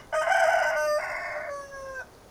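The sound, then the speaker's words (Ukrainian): An old rooster on a post by a gate crows plaintively: one long, loud, wavering crow with rich harmonics that tapers off at the end, with no talk. “біля воріт на стовпі сидить старий півень Густоль Ганеман і жалібно кукурікає.”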